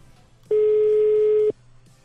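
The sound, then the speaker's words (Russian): A telephone tone sounds as a mobile number is dialed: one steady, mid-pitched beep about a second long, alone over a faint background hiss. “Так, набираю его.”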